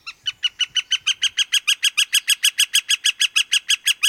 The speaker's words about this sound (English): immerse yourself in the soothing sounds of this northern flicker.